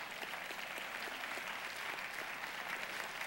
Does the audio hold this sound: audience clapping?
yes

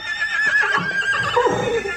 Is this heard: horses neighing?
yes

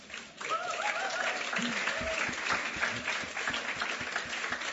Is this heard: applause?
yes

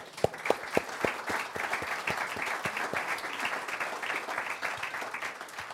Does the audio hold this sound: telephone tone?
no

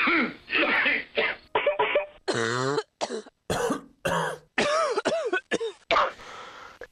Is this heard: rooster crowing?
no

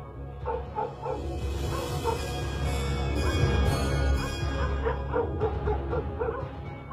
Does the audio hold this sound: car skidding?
no

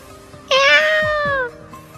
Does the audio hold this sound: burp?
no

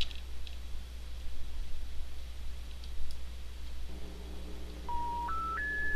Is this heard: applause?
no

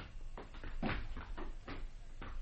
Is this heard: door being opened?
yes

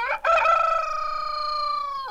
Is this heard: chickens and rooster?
yes

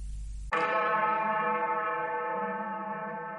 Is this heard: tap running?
no

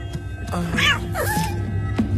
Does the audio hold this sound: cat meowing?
yes

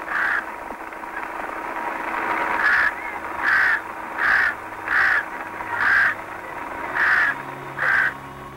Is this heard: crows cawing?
yes

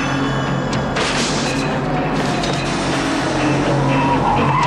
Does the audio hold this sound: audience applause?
no

